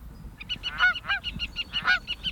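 Birds calling from reed beds in nesting season: a rapid, unbroken series of many nasal, honking notes in a steady rhythm, with a few louder, harsher calls standing out.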